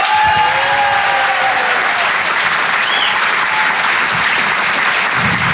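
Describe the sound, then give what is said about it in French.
An audience applauds a comedian at a comedy show with dense, loud, steady clapping that fills the whole stretch without a break. “Je vous demande de l'encourager très chaleureusement et de faire un maximum de bruit s'il vous plaît pour Thomas Marty.”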